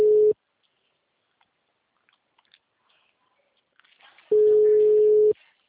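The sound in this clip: Telephone busy tone on a blocked call: two steady low beeps, a short one cut off at the start and a longer one after a near-silent gap holding a few faint clicks.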